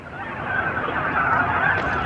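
Dense, overlapping honks and quacks from a basket full of ducks waiting to be ringed, a steady loud chorus of many birds calling at once with no pauses.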